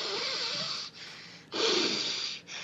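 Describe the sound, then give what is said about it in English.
Alternate nostril breathing, made of a few long, airy breaths drawn and pushed through the nose. Brief pauses separate the breaths, and no one speaks. “You can hack this alternate nostril breathing.”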